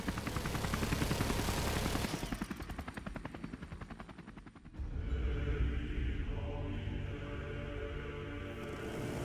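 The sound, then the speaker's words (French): A machine-gun burst on a battlefield: a dense, loud roar gives way to rapid, evenly spaced rattling shots for a couple of seconds, then drops into a lower, rumbling wash of noise. “il fut coupé en deux par la première rafale de mitrailleuse”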